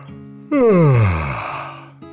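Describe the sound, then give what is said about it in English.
A drawn-out yawn voiced for a construction-vehicle character in a children's story: one long sound that starts loud, slides steadily down in pitch and fades into a breathy tail, with soft sustained tones before and after. “yawned”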